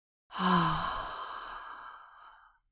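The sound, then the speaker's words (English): A slow, audible exhale through the mouth after a long nasal inhale, done as a stress-relief breathing exercise. One long breathy sigh, softly voiced at the start, swells quickly and then fades gradually over about two seconds, heard alone. “you take a long, slow inhale through your nose and let the breath out of your mouth with an audible”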